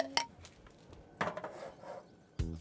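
A pot with a clay lid, holding a filling with butter, lemon juice and vegetable broth, clunks onto a stove: three separate faint knocks of cookware, well spaced, with quiet pauses between them.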